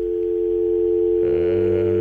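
Telephone dial tone after a dropped call: a steady, unbroken electronic tone that holds throughout, with a lower buzzing layer joining partway through. No voices.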